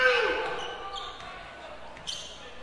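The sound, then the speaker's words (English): Basketball dribbled on a court during a game, heard as a few sharp, faint bounces under voices and general crowd noise, with one slightly louder thud near the end. “dribbling around, trying to get somebody open”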